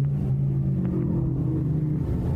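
Race cars roar past at the Indianapolis 500, a steady low engine drone that holds throughout with a slight downward drift in pitch and no breaks.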